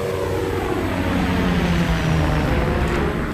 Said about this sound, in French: Prêt pour le top. Prêt. Décollage dans 3, 2, 1, plein gaz.